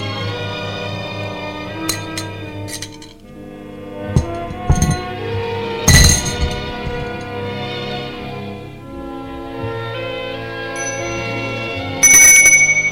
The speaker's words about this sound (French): Dans l'après-midi, on sonne au portail.